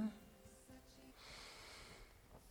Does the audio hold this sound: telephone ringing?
no